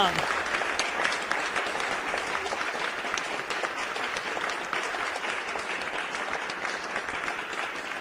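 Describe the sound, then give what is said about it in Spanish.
A crowd applauds with sustained, dense clapping that stays steady and fairly soft throughout, with no breaks. “Ahí está, hasta que se acabó el último aplauso.”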